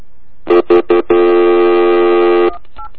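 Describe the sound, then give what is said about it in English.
Touch-tone telephone dialing: three short, loud beeps in quick succession, then one long steady tone that cuts off, followed by a faint brief blip. “Dialing.”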